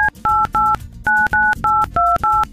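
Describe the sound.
Telephone keypad tones from a number being dialed: eight short, loud beeps in a quick, fairly even rhythm. The first beep is cut short, and the pitch combination shifts from press to press, with no talk.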